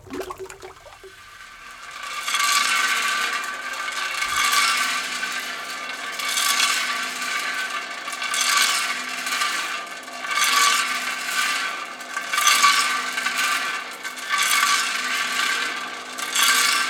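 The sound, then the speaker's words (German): In a tiled stove factory, a drum mill churns glaze with a steady grinding, rushing noise that swells at regular intervals of about two seconds. “Dann haben wir eine Trommelmühle, in der die Glasur aufbereitet worden ist. Das kann man sich vorstellen so als Hintergrundgeräusch einen ganzen Tag in so einer Kachelofenfabrik.”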